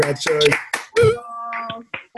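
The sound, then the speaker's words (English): Online meeting participants give a round of applause, with scattered hand claps early on mixed into overlapping voices. “So I think if everybody wants to unmute and just give a round of applause or what to Joy.”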